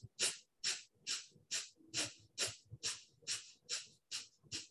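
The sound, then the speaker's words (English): Short, forceful exhales from a yoga breathing exercise: eleven sharp bursts of breath through the nose in a quick, even rhythm, each a loud hiss that cuts off cleanly, with no talking. “and then short, quick breaths, bringing your navel towards your back as you extend. Your inhale will happen naturally. You're focusing on your exhale.”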